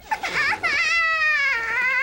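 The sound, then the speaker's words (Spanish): An infant cries in an animated series: short whimpering sobs give way to a long, high, sustained wail that dips slightly in pitch and holds until the end. “¿Qué pasa? ¿Por qué llora? Oye, tal vez tenga hambre, ¿no crees?”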